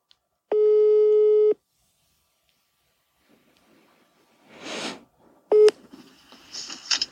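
A telephone call tone on an unanswered call: one steady beep lasting about a second, then quiet, a rustling burst and a second, shorter beep, with faint noise trailing after.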